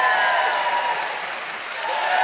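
Instant audience applause, a dense wash of many clapping hands that dips slightly midway and then swells back up.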